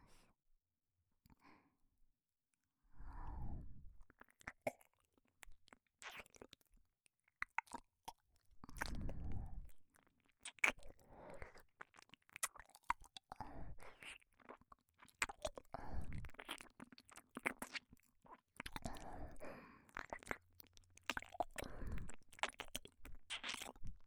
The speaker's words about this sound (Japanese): ご主人様の耳、美味しそう。それじゃあ、いただきます。